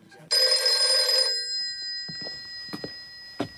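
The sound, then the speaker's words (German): A telephone bell rings at night: one loud, buzzing ring lasting about a second that cuts off and leaves a fading hum, followed by a few soft knocks. “Es war 2 Uhr nachts und wieder ging das Telefon.”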